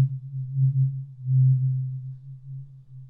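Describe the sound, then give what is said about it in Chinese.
A tuning fork sounds a low, pure, steady tone whose loudness swells and fades in gentle waves, with nothing else heard. “接下来听完音叉，我们再来听一下”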